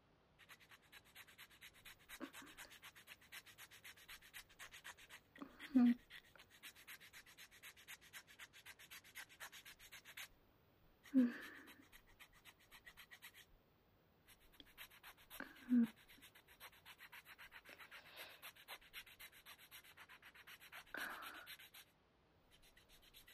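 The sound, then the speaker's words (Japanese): Faint, steady rasping strokes of a file worked over a left hand one finger after another, many fine scraping passes punctuated by a few sharper knocks at regular intervals. “じゃあ、左手の前に順番にヤスリがけを。手借りるわね。”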